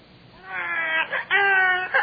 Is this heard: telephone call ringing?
no